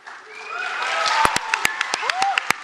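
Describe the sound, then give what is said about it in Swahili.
Audience applause after a karate display at a UNICEF 70th-anniversary celebration: scattered sharp claps over a rising crowd murmur, growing denser and louder toward the end. “Makofi yakamiminika kwa stadi wake.”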